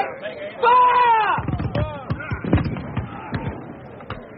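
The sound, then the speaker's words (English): A musket volley is fired in battle as a rapid burst of sharp, crackling shots, mixed with shouting voices. “Bring your musketeers forward, Sir Gervas! Fire, men! Kneel! Take aim!”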